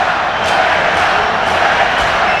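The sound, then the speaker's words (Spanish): Football stadium crowd at a Deportivo match shouting chants of "fuera", a loud continuous roar of many voices with a few brief surges. “Mira, hay varios gritos de fuera a fuera.”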